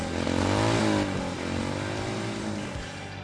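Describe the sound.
A Harley-Davidson motorcycle engine revving, with a loud, throaty drone that climbs in pitch in two surges before settling back.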